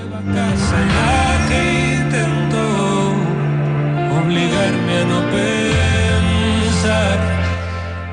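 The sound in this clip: A song from the singer's new album plays loud and continuous: full band music with a steady sustained low bass line under layered melodic harmonies, no speech.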